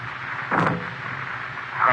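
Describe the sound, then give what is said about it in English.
A single muffled gunshot fired through a silencer in a radio drama, heard as one short, soft pop over a faint background hiss. “Here you are, Whitey. Use this silencer. Go ahead. No, don't shoot.”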